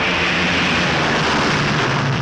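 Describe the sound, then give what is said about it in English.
B-17 Flying Fortress bomber engines turn over on a frosty English morning as an 8th Air Force crew heads to the plane. The roar is loud, dense and steady, with no clear breaks and no talk. “an 8th Air Force crew trots to its plane, its engines turning over.”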